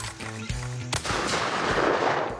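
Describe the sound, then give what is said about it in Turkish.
Gunfire from shooting at launched targets: a sharp, loud blast cuts through a steady tonal hum and leaves a lingering noisy rumble behind it. “Ancak aile önce Blue Ridge'de en sevdikleri şeyin tadını çıkarmak istiyor. Ateş etmek. Fırlat.”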